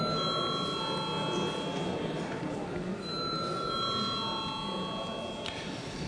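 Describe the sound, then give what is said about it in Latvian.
A bell rings in a parliamentary chamber to call members to a vote, a steady, sustained electric ringing tone holding throughout over a continuous background murmur. “lūdzu zvanu”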